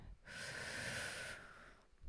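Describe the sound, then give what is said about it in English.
A person breathes deeply, one long, breathy hiss of air lasting about a second before tailing off, soft and alone with no talk. “So give yourself a big hug and exhale. Inhale.”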